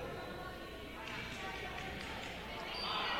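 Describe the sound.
A basketball bounces away across the court during a game, a faint run of dull thuds under commentary and crowd noise.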